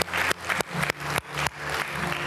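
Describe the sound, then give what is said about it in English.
A church audience applauds with sharp, evenly spaced claps that land as a rhythmic series of loud bursts over a low, sustained tonal background. “Would you extend let's give her one more hand of applause.”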